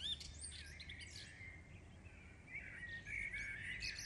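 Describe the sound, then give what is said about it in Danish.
Birds singing at dawn just before sunrise, a steady chorus of high chirps and trills that grows brighter and busier in the second half, over a constant low background hum. “Nu begynder fuglene at synge.”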